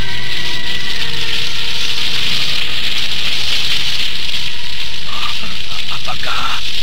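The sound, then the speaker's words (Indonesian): Blacksmiths' forge fire being stoked, giving a continuous dense crackle and bright hiss that stays loud throughout. “kedua pandai besi itu membesarkan api yang mulai mengecil itu”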